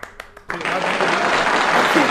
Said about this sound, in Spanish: Ahí irían los aplausos de nuevo.